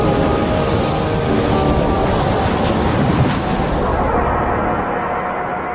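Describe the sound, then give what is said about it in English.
Ocean waves break and throw spray in a loud, continuous rushing wash, with a broad surf roar that eases slightly toward the end. “Look at the waves”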